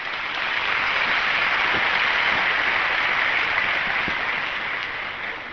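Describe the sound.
A church audience at a sermon gathering applauds a man on his sixteenth wedding anniversary. The clapping is loud, dense and unbroken for over five seconds, with no talk over it.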